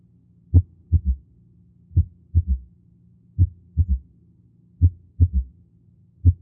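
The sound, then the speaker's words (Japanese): Heart sounds through a stethoscope in 2:1 atrioventricular block with an atrial sound: soft low thuds repeat in a steady cycle, a lone atrial beat followed by a paired first and second heart sound. “30番目の聴診のポイントは、2対1、心房ブロック、房室ブロックですね。1音と2音が聞こえ、そして心房音が聞こえています。”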